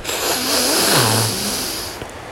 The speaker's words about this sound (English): So we're going to breathe through our nose.